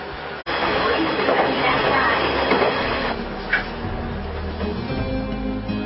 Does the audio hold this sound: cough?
no